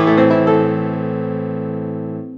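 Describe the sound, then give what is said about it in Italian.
An A minor chord struck once in an ear-training dictation and left to ring alone, its full sustained tone decaying slowly and evenly over a little more than two seconds. “Quello che avete sentito è l'accordo di La minore.”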